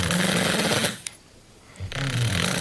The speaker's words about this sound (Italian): Ad ogni respiro, il tessuto della faringe e della lingua cominciano a vibrare. Si comincia a russare.